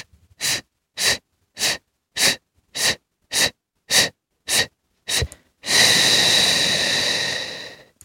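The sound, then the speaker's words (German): Breathing exercise demonstrated for activating the diaphragm: a long series of short, sharp, evenly spaced breath puffs, followed by one long, loud, noisy exhalation that trails off. “Ich mache es nochmal vor, einatmen. Kurz halten und dann kurze oder lange auch.”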